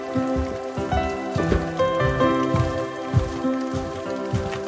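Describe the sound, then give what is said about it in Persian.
Rain falling on a surface makes a steady patter of many drops with scattered louder taps, continuous throughout with no talk. “آره بارونه بریم داخل.”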